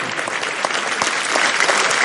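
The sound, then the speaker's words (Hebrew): Applause for a guest from Moscow during a lesson, many hands clapping in a steady, dense patter, fairly loud and even from start to finish. “Давайте похлопаем этому парню. ממוסקבה, שנמצא פה כבר תקופה, בוא נמחא לו כפיים.”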